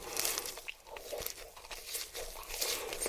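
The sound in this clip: Crunchy chewing of food in the mouth, with many rapid crackling crunches running steadily through the whole clip and no talking.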